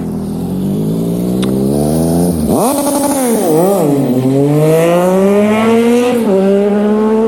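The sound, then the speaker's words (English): Street traffic on a corner outside a residential area, led by a loud vehicle engine that revs and drops in pitch several times. The engine roar is steady and continuous, with no voices. “over this traffic noise, I'm on a corner. I'm not in a residential area.”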